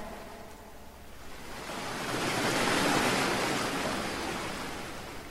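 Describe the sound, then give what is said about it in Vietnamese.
Ocean waves crash against a rock cliff in a continuous, rushing roar that swells to a peak midway and then eases slightly. “Lại còn một con sóng cao mấy mét ập đến, đung đưa lay động bên dưới con thuyền, rồi quật vào vách đá.”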